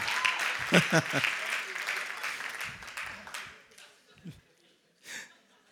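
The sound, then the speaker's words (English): Church audience applauding and cheering for their pastor, a dense wash of clapping with raised voices that is loudest at first, then thins out and fades away after about four seconds. “Let's give him a cheer.”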